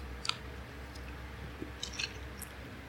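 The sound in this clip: Chewing on convenience-store microwave food during a taste test: a few soft, crunchy and squishy bites, faint and spaced out, with no talking.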